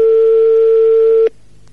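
A telephone call rings out as a single steady, clear electronic tone that holds for just over a second and then cuts off abruptly, leaving only a faint low hiss on the line.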